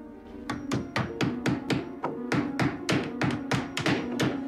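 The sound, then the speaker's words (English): Hammering as boards are nailed over a door: many sharp, evenly spaced blows in a steady rhythm, each one loud and percussive, over a constant low hum. “they set to work on boarding up another door.”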